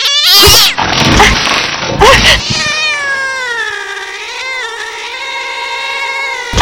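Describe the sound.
A cat with its fur bristling yowls and meows. Harsh, noisy bursts in the first couple of seconds give way to a long, drawn-out, wavering yowl that holds to the end.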